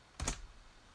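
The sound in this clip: A computer click as the Apply button is pressed to sync items to an iPhone: a short, faint double tick, crisp and dry, followed by quiet.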